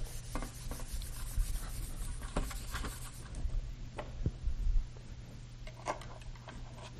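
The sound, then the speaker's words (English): Writing on a board while a timeline is drawn: scratchy rubbing strokes and a few light taps, moderately faint and without talk. “And this is why it was so very difficult for believers, if we were to draw our timeline once again.”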